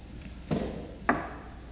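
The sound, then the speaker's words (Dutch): Hay going into an animal feed trough: two soft, rustling thumps about half a second apart, fairly quiet and alone. “Zo, ik heb hier een voerbak voor de dieren. Daar doe ik even een beetje hooi in.”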